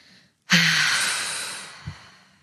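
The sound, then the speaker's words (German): A forceful exhale through the mouth after a deep belly breath in a breathing exercise: one long, breathy rush of air that starts abruptly and slowly fades, with a faint catch near its end and no talk. “Dann nochmal tief einatmen über die Nase, bis der Bauch ganz, ganz prall, ganz, ganz voll ist und dann aus über den Mund ganz energisch.”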